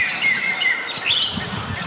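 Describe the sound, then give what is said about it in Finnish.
A blackbird sings close to the microphone on a morning in a small wood. Clear, fluty whistled phrases rise and dip over a faint background, with a short pause between phrases. “Kyllä, ja Mustarastas on ihan mikrofonin lähellä.”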